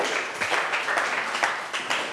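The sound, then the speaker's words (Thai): Students clapping for a classmate, a steady wash of applause with irregular bursts, continuous and moderately loud throughout. “นักเรียนปรบมือให้เพื่อนค่ะ”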